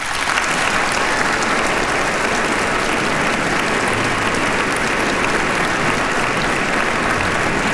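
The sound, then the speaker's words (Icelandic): Warm, sustained applause for the Iceland Symphony Orchestra at an evening concert, a thick, even wash of clapping from a large audience that holds at one level from start to finish. “Það Daníel Bjarnason sem stjórnar henni hér í kvöld og ég legg til að við gefum henni gott klapp.”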